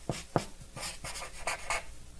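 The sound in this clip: Handwriting with a pen: many short, scratchy strokes in an irregular rhythm, each a quick rasp with small pauses between, fairly faint and heard alone.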